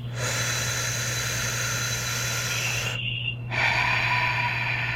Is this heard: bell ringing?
no